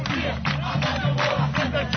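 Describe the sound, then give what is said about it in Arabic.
Supporters of the Shabab Khan Younis football club chant together, a loud, dense and continuous mass of voices with a steady rhythmic pulse and no pause. “نستمع لهتاف جمهور شباب خان يونس.”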